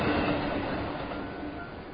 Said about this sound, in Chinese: 一列火车开过去，路面是湿的。